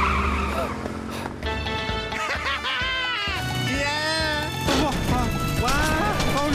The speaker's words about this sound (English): Can't this thing go any faster? Sure it can, but the speed limit's only 35 miles an hour. What? Step on it!